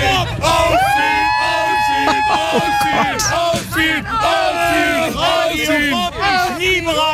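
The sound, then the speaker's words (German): A crowd cheers and yells while waiting a long time in the blazing sun for the infield to open. Many voices shout, whoop and hold loud, sustained cries in a continuous, dense roar. “Ich halte mal ganz kurz das Mikro rein, wie das so klingt, wenn die hier stehen.”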